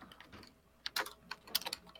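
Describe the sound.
Faint clattering of fingers typing on a computer keyboard, many quick, sharp key clicks arriving in irregular bursts with short lulls between them.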